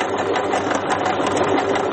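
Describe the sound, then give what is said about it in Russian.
A sewing machine runs while Ukrainian flags are sewn on it, giving a steady, dense mechanical whir that holds at an even loudness throughout, with no voices. “Сейчас мы шьем вот такие вот красивые наши украинские флаги”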